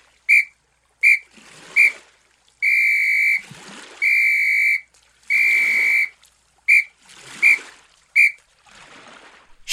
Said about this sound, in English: Short, short, short. Long, long, long. Short, short, short. It's the SOS signal. It's a signal for help.